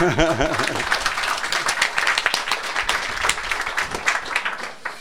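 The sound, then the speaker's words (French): Applause from an audience at a space science lecture: dense, steady clapping that holds at an even level for the whole stretch, with a voice briefly audible at the very start. “Bravo, je crois que ça s'applaudit.”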